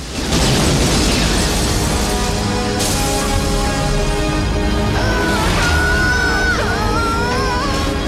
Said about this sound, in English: The soldiers share a glance, and the next explosion hits the apartment building.